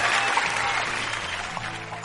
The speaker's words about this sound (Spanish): Es ella, prepárame los aplausos, por favor, volvemos a recibir como si fuera casi celebridad.